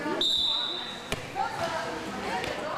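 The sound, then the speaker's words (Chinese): A volleyball being served, heard as two sharp hand-on-ball smacks about a second and a half apart over a busy background, with a steady high-pitched tone sounding early on. “我现在就要发球了，”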